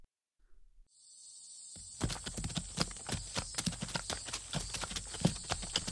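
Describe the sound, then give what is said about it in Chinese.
Horse hooves clip-clop in a steady stream of many beats as riders set off, beginning after a short quiet lead-in, over a constant high-pitched hiss. “我早已准备妥当，我们这就骑马上路便是。”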